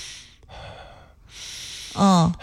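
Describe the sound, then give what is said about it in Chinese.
A man imitates his own slow, deep, long breathing during sleep: airy breath sounds in a few stretches, ending with a short, louder voiced throaty sound. “我的频率是我吸气很深很长，我吸气。”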